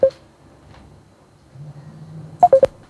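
Telephone dialing tones ring out as a radio call-in host places a call to a listener: one short beep at the start, a low murmur, then a quick run of three bright beeps at the end.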